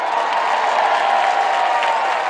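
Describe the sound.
A crowd at a 2024 baseball game cheers and applauds as a bat dog finishes her duties. Steady clapping with a broad wash of cheering voices holds at a fairly even level.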